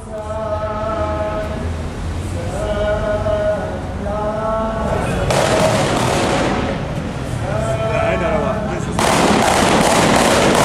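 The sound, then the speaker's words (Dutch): Men fire gunshots into the air in the neighbourhoods of Beirut. Dense bursts of rapid gunfire break out over sustained shouting voices, and a second loud burst comes near the end. “Er wordt heel veel in de lucht geschoten, maar door mannen die duidelijk niet heel voorzichtig met de wapens omgaan.”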